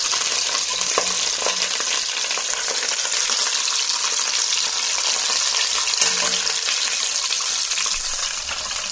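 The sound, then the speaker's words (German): Whole bell peppers fry in a pan and are turned with a fork or tongs to brown on all sides, giving a loud, continuous crackling sizzle with a few soft clatters of the utensil and no talk. “Dann nehmen wir eine Gabel oder eine Zange zum Umdrehen der Paprikaschoten, die von allen Seiten ein bisschen angebraten werden.”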